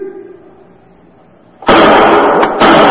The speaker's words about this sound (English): Shots came from that lower window. Yeah, and he hasn't located us. He was firing wildly.